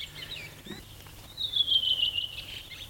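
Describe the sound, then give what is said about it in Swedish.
A fieldfare sings, a high scratchy run of squeaky, chattering notes that swells into a brief louder burst, with fainter thin calls before and after. “Och sen kommer det ett litet björktrast, krax efteråt. Och så sitter en annan hanne och sjunger en bit bort och svarar.”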